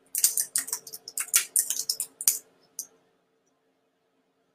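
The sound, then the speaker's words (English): Quick keystrokes on a computer keyboard as a website address is typed: a rapid run of many sharp clicks for about three seconds, then silence and one last tap at the very end. “I am gonna type that in right now for you guys.”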